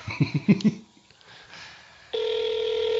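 A telephone ringback tone plays on an outgoing call while waiting for voicemail to pick up. A steady, sustained electronic tone begins partway through, after a short run of brief, uneven sounds.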